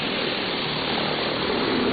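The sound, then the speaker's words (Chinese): A delivery drone used for low-altitude logistics hums and whirs steadily as it flies its planned route. The noise is loud and constant, with no voices. “现在飞机已经开始执行路线了。”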